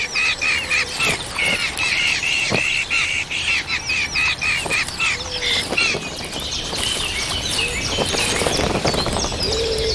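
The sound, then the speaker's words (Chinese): Hungry red-tailed hawk chicks call in the nest in a loud, dense, continuous stream of high chirps and squawks with no talk. “一窝饥饿的大尾鹰雏鸟需要父母全心全力照料，”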